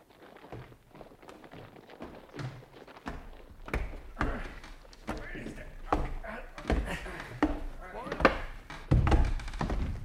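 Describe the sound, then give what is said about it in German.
A wooden wardrobe being moved and knocked against a wall, giving many dull thuds and knocks of varying force, with voices heard between the impacts. “Du sei vorsichtig mit dem Schrank. Ja, ja. Das ist zwar nicht meiner, aber du darfst ihn doch nicht so an die Mauer stoßen.”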